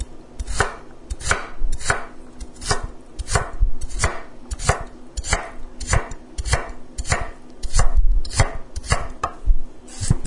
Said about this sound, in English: But what are we going to do with a quarter of a carrot? May as well chop it up.